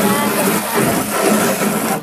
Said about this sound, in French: Vas-y, fais voir comment tu fais pour nettoyer les bacs.